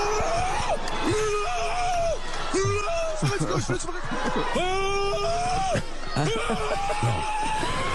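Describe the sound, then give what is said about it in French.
A Moroccan football supporter shouts in joy after Morocco's match against Spain. The loud, high-pitched voice comes in repeated strained bursts over a background of crowd noise. “C'est le cri d'un supporter marocain après le match contre l'Espagne.”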